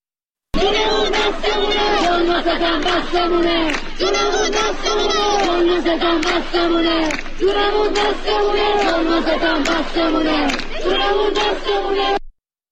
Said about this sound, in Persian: دانشجویان دانشگاه علم و فرهنگ در تهران هم روز سه‌شنبه گرد همایی پرشوری ترتیب دادن. حیف صدای اونها رو نشنویم. اگه ممکنه صداش پخش بشه.